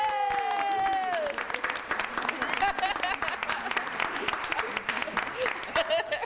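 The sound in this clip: Audience applause for a performer at a live event with a CD giveaway: dense, sustained clapping that fills the whole stretch, opened by a cheering voice and continuing at a lively, even level.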